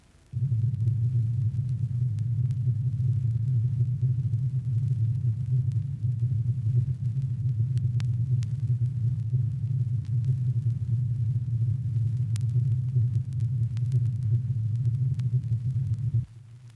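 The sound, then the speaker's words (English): Steady 125-cycle test noise, recorded in phase and then out of phase, gives a dense, low rumbling hiss. It runs evenly for about fifteen seconds and then stops abruptly. “Following is 15 seconds of 125 cycle noise recorded in phase, followed immediately by the same noise recorded intentionally out of phase.”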